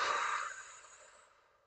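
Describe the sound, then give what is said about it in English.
A deep breath released during a guided relaxation exercise: one long, breathy rush of air that starts strong and fades away gradually, heard alone with no talk. “I want you to take a deep breath in and push your hands out and release it.”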